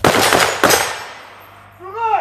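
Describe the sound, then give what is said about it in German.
Assault rifle gunfire at a modernized 1960s former army shooting range in Frankfurt, where a police raid squad fires during drills. Two loud, sharp reports ring out with ringing decay, followed by a voice. “Das Sturmgewehr im Anschlag rücken die Männer vom Überfallkommando Frankfurt vor und zurück, werfen sich zu Boden, feuern ihre Magazine leer im Knien, liegen oder stehen.”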